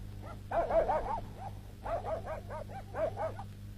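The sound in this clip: Dog barking during a tense indoor scene, heard as three clusters of rapid, high yips and yelps over a steady low hum.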